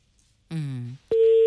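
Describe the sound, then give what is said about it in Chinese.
A telephone call rings while waiting to connect. A short voiced sound comes first, then a steady, pure, mid-pitched ringback tone begins and holds loud to the end. “我们看一下这个电话哈，接通了，看咨询一下，你好。正接通”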